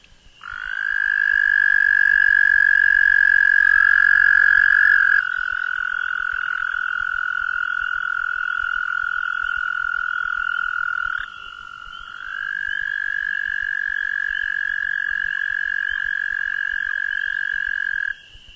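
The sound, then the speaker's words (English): An American toad gives one long, steady, high musical trill that runs almost without a break. Its pitch shifts slightly a couple of times along the way. “American Toad.”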